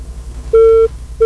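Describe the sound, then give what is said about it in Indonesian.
Telephone disconnect tone on a call-in line after the caller drops: one steady mid-pitched beep lasting about a third of a second, then a second beep just starting, over a low hum. “Terputus sambungan teleponnya.”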